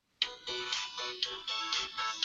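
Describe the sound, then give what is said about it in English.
Electronic game audio from the mobile game Disco Dave played through a phone speaker: bright, repetitive synth tones pulse in a steady rhythm, starting abruptly after a brief silence and continuing alone. “I downloaded a little game called Disco Dave. Okay. Hey. Let's turn the volume on my phone here. Let's see if we can get some of this audio.”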